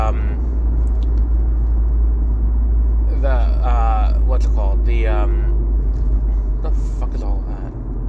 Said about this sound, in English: truck's coming in. What's today? Today's Tuesday. Like, a truck on Tuesday?